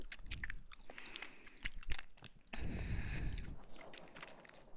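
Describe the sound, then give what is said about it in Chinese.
Chewing and biting on food, moist crunchy mastication in irregular bursts with a louder stretch midway, no talking. “慢慢的吃，一小口一小口的吃，就不会噎着了。”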